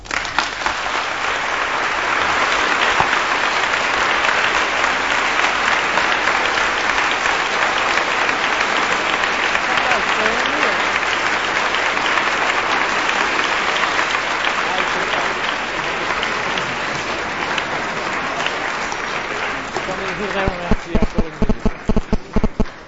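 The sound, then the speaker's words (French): Large audience applauding after a lecture, a dense and steady roar of clapping that lasts about twenty seconds before thinning into a few loud, distinct claps at the end. “l'interprète du nombreux public qui ce soir vous a si chaleureusement soutenu par leur applaudissement”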